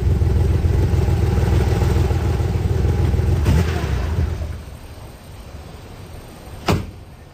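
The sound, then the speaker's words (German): A green Porsche's engine rumbles steadily as the car pulls up, then dies away as it stops. One short, sharp knock follows near the end. “als ein grashüpfergrüner Porsche neben ihren nackten Beinen hielt.”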